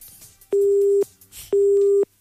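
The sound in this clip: Telephone busy signal after a caller's line drops: two loud, steady beeps of about half a second each, separated by a short gap, over faint background noise.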